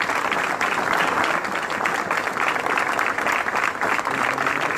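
Applause from a crowd at a press workers' union gathering: dense, steady clapping that stays loud and even from start to finish, with no pauses.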